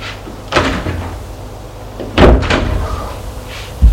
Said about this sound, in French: Il est entré, elle a fermé la porte.